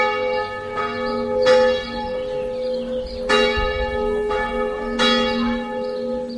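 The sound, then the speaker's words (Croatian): A Serbian Orthodox church bell in Sećuj rings to call worshippers to the summer feast of St Nicholas, with repeated loud metallic strikes at an uneven pace, each leaving a long, bright, humming resonance that overlaps the next. “Ovako je pozivalo zvono Sećujske srpske pravoslavne crkve vernike na praznovanje letnjeg Svetog Nikole, zaštitnika svetinje.”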